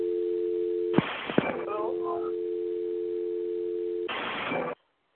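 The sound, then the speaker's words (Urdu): A steady telephone dial tone after a call from India drops mid-conversation. The continuous tone is broken by a couple of sharp clicks and a burst of noise near the end, then it cuts to silence. “India سے انہوں نے کال کی تھی لیکن line کٹ گئی بیچ میں سے”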